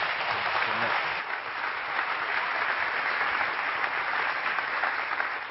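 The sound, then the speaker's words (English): A church audience gives a warm round of applause welcoming a pastor. The thick, even clapping holds steady at a fairly loud level throughout. “You put your hands together and welcome Pastor Jerome to our church.”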